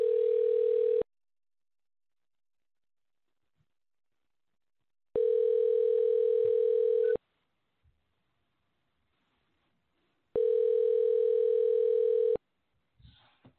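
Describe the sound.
Ringback tone on a telephone line while a call is being placed: three steady, even tone bursts of about two seconds each, the first cut short, separated by long silent gaps.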